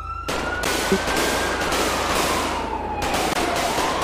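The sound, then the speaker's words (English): Gunfire in a police SWAT video game: a few sharp shots break through a dense, loud wash of noise, with a siren's drawn-out wailing tone running underneath throughout. “I'm hit, I'm bleeding, but I'm gonna be okay. It hit me in the vest. Come on. Still shooting.”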